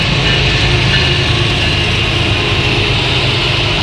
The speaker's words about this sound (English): Okay, what kind of train is this? This is a freight train coming by.